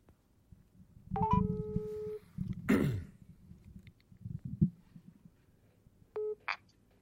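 A telephone call is dialled with electronic tones: a run of beeps that settles into a held tone, rough throat-clearing noises in between, then a second short burst of tones, all fairly faint.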